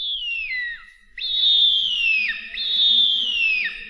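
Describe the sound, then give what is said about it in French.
A child whistles an imitation of a bearded vulture's call: a short falling phrase, then two longer high, clear whistled tones, each gliding downward at the end. “Alors si vous communiquez avec eux, vous savez sûrement faire le cri du JIPAET à la perfection. On vous écoute.”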